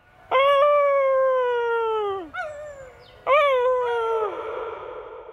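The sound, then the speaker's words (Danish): A person imitates a wolf howl in dark woods: a long, loud, tonal howl that sags at its end, a brief pause with a small yelp, then a second howl that breaks and trails off. “Men jeg må give mig hen, og alligevel lykkes det mig at få fremprovokeret et form for ulvehyl.”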